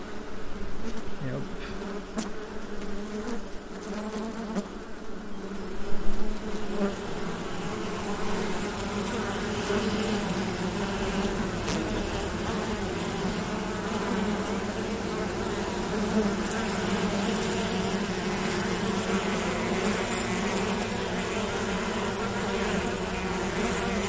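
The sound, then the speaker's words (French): Honeybees buzz in an opened beehive after the feeder cover is lifted off the frames, a steady, continuous droning hum of many insects that barely changes throughout, with one brief louder swell early on. “on voit toutes les petites abeilles.”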